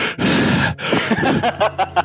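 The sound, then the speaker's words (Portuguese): A voice imitates heavy breathing: two long, loud, forceful breaths in a row, followed by a few short voiced huffs. “Aquela respiração forte,”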